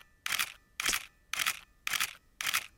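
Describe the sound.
A camera shutter snaps five times at an even pace while taking a group photo, each click short, crisp and fairly quiet with brief silence between.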